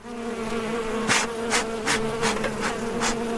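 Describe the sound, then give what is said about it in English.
Bees buzz around beehives in a Transylvanian village while a keeper fumigates them with smoke from smouldering dry fungi. A steady, loud droning hum runs throughout, with a few brief brighter swells and no talk. “As he showed me his hives, he fumigated them with smoke from a smouldering piece of dry fungi to calm the bees”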